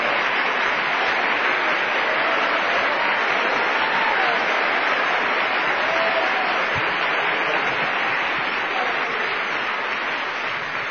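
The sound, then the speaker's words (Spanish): Congregation applauding during a church sermon: sustained, dense clapping that stays steady and loud for about eleven seconds. “¡Aplauda al Señor! ¡Aleluya!”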